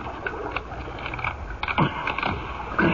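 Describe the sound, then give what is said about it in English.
A key unlocking an old, rusted gate lock: a few faint metallic clicks and scrapes over quiet background. “Now, I'll show you how easy it is to unlock the gate.”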